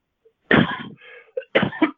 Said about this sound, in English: Excuse me, I've got a cough here.